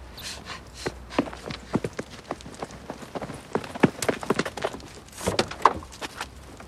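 Footsteps along a riverbank, uneven and crunchy, landing at an irregular walking pace with some louder scuffs, heard alone without voices.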